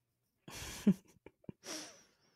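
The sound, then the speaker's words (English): Two soft breaths taken before speaking, the first a quick inhale ending in a small catch. Faint mouth clicks come between the two, and the second is a longer, airy breath that trails off into silence. “I'm going to take a breath. We'll gather my thoughts before I speak.”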